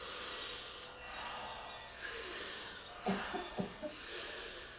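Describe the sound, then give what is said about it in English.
Rhythmic group breathing during a breathing exercise: big power breaths in and soft exhales. Airy, hissing breaths repeat in a steady cycle about once a second, with a few soft breathy pulses near the end. “So big power breath in, soft exhale. We do it rhythmically. We do it together. It sounds like this.”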